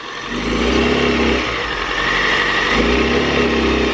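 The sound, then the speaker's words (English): Car engine bogging down while being power braked, a sustained low drone that loses power and sags midway before recovering to a steady roar, with no voices. “And you can almost hear that sound. It's kind of bogging down, that lack of power sound.”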